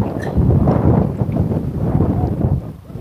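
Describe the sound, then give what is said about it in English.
Wind blows into an outdoor microphone as a continuous low, rumbling buffet that swells and eases slightly but never stops. “I hope you're not hearing this wind, but it feels delightful.”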